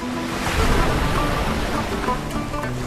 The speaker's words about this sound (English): It then reappears as the water retreats. V&E strolls along the shoreline. As much as I love being back by the sea, I must move on.